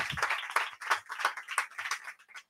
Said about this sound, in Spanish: Dani Boy Rivera, un aplauso